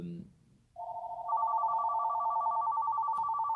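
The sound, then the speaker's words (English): Telephone ringing, a steady electronic tone of layered pitches that starts after a brief pause and a second higher tone joining moments later, sounding continuously to the end over a faint low hum. “I'm just going to let this go to the voicemail. I got to answer this one.”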